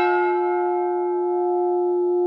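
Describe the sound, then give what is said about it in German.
A single church bell stroke sounds over a silent village, one strike followed by a long, steady ringing tone whose brighter overtones fade slowly while the deep hum lingers to the end. “Der Schlag der Glocke klang ungewöhnlich. Es war ein Ton, den wir nie zuvor gehört hatten. Einzelne Schläge, die über dem stummen Dorf schwebten.”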